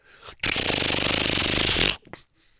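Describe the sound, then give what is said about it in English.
A credit card terminal processes a payment and prints a receipt: one loud, rough buzzing rasp of about a second and a half that starts and stops abruptly, with a fine pulsing texture throughout. “And the credit card machine goes...”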